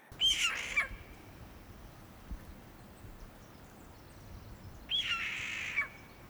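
Jay calls: two harsh, raspy screeches, each lasting under a second, separated by several seconds of faint background hiss.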